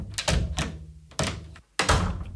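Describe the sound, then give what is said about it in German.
Energetic knocking on a cabin door, several firm, hollow thuds in irregular bunches with short gaps between them, and no voices. “Durch ein energisches Klopfen an der Kabinentür wurde ich von meiner Whiskyflasche abgelenkt.”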